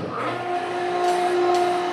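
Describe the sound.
A helium liquefier machine starting up in a university physics lab gives a loud, steady mechanical drone with strong sustained hum tones running through it. The sound stays level and unbroken for the whole stretch.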